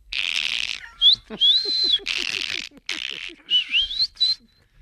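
A greeting whistled in the Canarian whistled language: a series of piercing, sustained whistles with gliding pitch, split by short gaps and heard alone.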